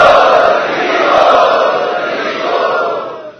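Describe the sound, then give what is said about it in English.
A large crowd loudly chanting "Hare Bol" to welcome special guests at an evening Prerna festival gathering, a broad sustained roar of many voices that swells and then gradually eases. “Let us welcome all of these special guests this evening by loudly chanting Hare Bol.”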